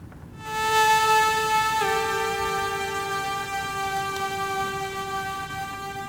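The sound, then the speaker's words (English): A synth tone from Massive uses a second oscillator with ring modulation set an octave lower for a brittle quality. The buzzy, harmonic-rich sustained note plays alone, steps slightly down in pitch early on, then holds steady. “So in Massive, what I'm doing right now is using a second oscillator and using a ring modulation on that oscillator to give it an octave lower sound, but also to give it a bit of a brittle quality.”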